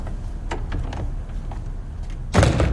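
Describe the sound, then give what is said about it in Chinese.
A door is shut with a single loud thud near the end, after a stretch of low, steady background noise. “你把门关上，把门关上，坐下来”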